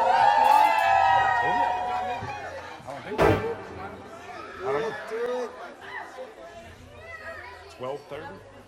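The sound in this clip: A crowd of women cheers at a live show, with loud shouts and screams at first that settle into busy crowd chatter and scattered yells.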